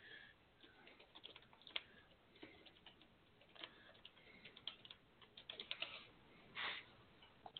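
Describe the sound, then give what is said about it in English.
Typing on a computer keyboard gives quiet, irregular clicking keystrokes that come in uneven bursts and short runs, alone and without talk. “I'll even type because of the delay.”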